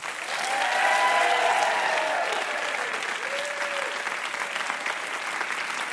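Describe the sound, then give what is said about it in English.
Audience applause at a live puzzle show: dense, continuous clapping that swells quickly, holds loud for a couple of seconds, then eases slightly and carries on steadily. “How about a hand for Ashley?”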